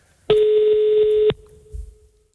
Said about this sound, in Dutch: Dus we gaan nu eens even bellen.